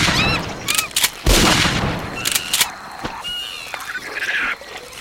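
A rifle fired in a video game gives one loud, sharp blast. Bird-like chirps and other brief game noises surround the shot.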